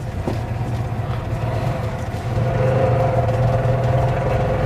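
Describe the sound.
A car engine revving, a cheap, attention-grabbing vehicle with a manual clutch: a low, steady drone that steps up in loudness partway through and holds there, with no voices.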